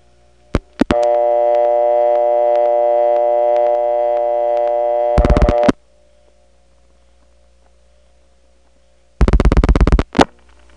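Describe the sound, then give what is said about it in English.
Telephone switching tones through a Drake step-by-step incoming selector into the DeKalb County PBX: a few clicks, then a steady buzzing tone with strong harmonics lasting about four seconds. Two bursts of rapid dial-pulse clicking follow, separated by near silence. “So I'm going to dial 3-7, that gets into the Drake step, and then 1 goes into the DeKalb PBX, and instead of getting that city-type ring, you'll hear a PBX ring.”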